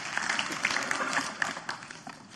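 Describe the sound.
An audience gives a steady round of applause to welcome a guest, a dense patter of clapping hands that stays fairly soft and even throughout.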